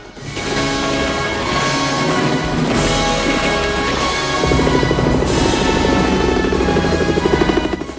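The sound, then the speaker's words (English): A helicopter's rapid, rhythmic rotor chop grows prominent about halfway through and continues steadily to the end, set among sustained tonal sounds and a loud, constant low rumble. “A swarthy man with stubble checks a computer in a helicopter.”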